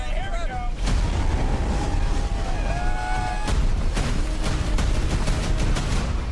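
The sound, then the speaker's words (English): Audio from a trailer for the tornado film Twisters, sequel to Twister, with a series of loud booming impacts and deep rumbling, thin whining tones and voices speaking. “Sequel to the 90s iconic classic Twister. Here's a little trailer.”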